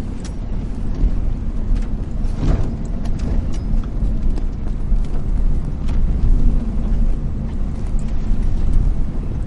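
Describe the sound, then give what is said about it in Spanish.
A pickup truck driving away across the desert: a continuous low engine rumble with gritty, crunching texture, holding a fairly even level throughout. “Hank sube a la camioneta y se marcha, abandonando al chico en el desierto.”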